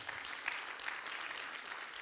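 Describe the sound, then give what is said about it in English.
A church audience applauds after a sermon announcement, a steady, even wash of many hands clapping that stays fairly faint and continuous with no voices over it. “Put your hands together for Julie.”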